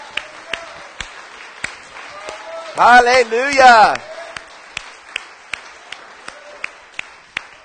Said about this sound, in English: Come on, put your hands together. Let's make some big noise here this morning.